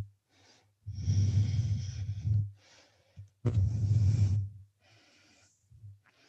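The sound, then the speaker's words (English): Long breathy exhales during a yoga forward fold: two strong, airy rushes, each lasting over a second, with fainter breaths between them and a steady low hum underneath. “Exhale, fold.”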